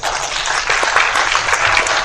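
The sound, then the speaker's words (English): Applause from a group of people, a dense, steady wash of clapping that holds at an even loudness throughout, with no talk over it. “So, please give a round of applause.”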